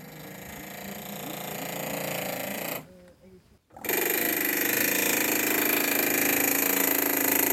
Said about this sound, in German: Mit Noise-Canceling-Kopfhörer und Schutzbrille ausgestattet, bearbeitet sie eine dunkelgraue Schieferplatte mit einem Drucklufthammer.